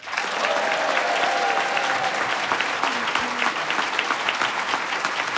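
A large audience in a town of 3000 people applauds to greet two young candidates. The dense, crackling clapping stays steady and continuous throughout with no break.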